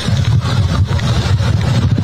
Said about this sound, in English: At this point, Ray Epps has turned his golf cart around and is just driving away.